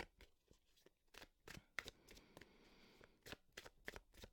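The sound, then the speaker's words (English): Playing cards from a themed 'sexy' deck being shuffled and drawn, making many quick, crisp riffling snaps and soft papery slides in an irregular rhythm, fairly quiet with no talking. “I'm going to do a second draw because I think I need more. I want more just to build on. So I'm going to draw one more from the sexy deck.”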